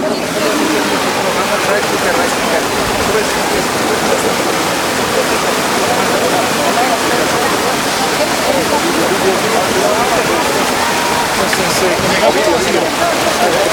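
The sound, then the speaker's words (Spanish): Water rushes loudly through the concrete canals of the Silala spring in Bolivia, where the northern and southern channels join. A dense, steady roar of churning flow continues unbroken from start to finish. “Aquí se han unido los dos canales, el canal del norte y el canal del sur. Esta es casi toda la cantidad de agua.”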